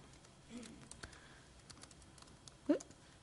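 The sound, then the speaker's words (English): Soft keystrokes from typing data entry on a computer keyboard, a quiet scatter of faint clicks with one sharper tap near the end. “All right, so let's go ahead and start entering some data.”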